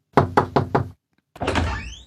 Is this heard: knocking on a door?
yes